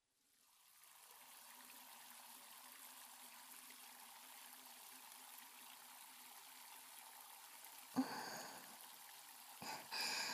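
Warm water wetting hair during a hair wash: a soft, steady stream rises from quiet and runs on evenly, broken near the end by a couple of brief, sharper splashes.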